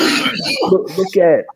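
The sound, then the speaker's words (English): A person coughs and clears their throat in a few rough, raspy bursts that run straight into brief speech. “My bad, I'm coughing like a motherfucker.”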